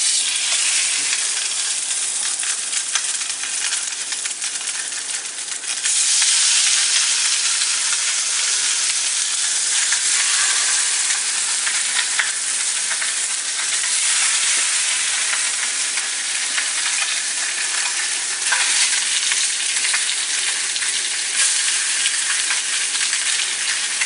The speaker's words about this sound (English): I got me a pan over here with some olive oil in it, ready to drop this fish. It's gonna cook for like 2-3 minutes on each side.